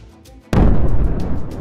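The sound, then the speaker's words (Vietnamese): A sudden loud boom bursts like a bomb across a stage. Its sharp onset gives way to a dense, sustained rumbling roar that lasts to the end, after a stretch of quieter low noise. “Cả một vùng sân khấu bừng dậy như bị nổ bơm.”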